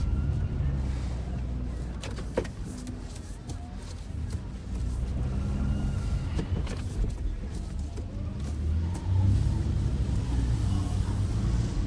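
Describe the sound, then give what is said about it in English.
A car slows down and makes a U-turn, producing a low, steady engine and road rumble. A few faint clicks and knocks sit on top, and the level stays fairly even throughout. “He slows and glances out the passenger window. He flips a U-turn.”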